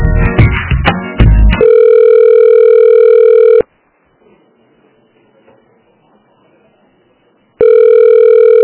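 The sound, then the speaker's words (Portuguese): Telephone ringback tone while a bank employee transfers a call. Brief voices are heard first, then a long, steady electronic tone, a pause of near silence, and the tone starting again. “Eu vou transferir, tá? Mas se cair a ligação, tu liga pra lá direto, tá bom?”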